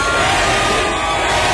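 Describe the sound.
A large concert crowd of about 20,000 people, gathered for a record crowd-surfing attempt, cheers and shouts in a loud, dense, continuous roar with no break.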